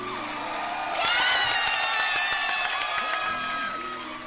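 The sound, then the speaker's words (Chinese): A crowd claps and cheers to welcome a radio host, with shrill whoops among the applause; the noise swells after the first second and tapers toward the end. “掌声欢迎广播女神！”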